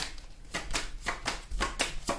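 Tarot cards being shuffled, heard as several quick, soft papery riffles in short regular bursts, with no talk.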